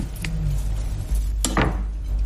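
A knife cuts food on a board: a few sharp, dry knocks and clicks stand out over a low, steady background hum.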